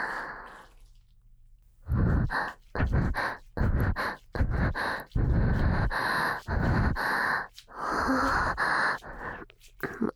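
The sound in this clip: A person breathes heavily in rapid, irregular bursts. Many loud, rough breaths come one after another, broken by short gaps, after a quieter opening.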